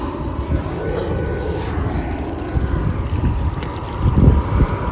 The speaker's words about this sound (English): I love seeing that Iceland aircraft, the 757 Boeing. This is an Airbus right here above us, United Continental.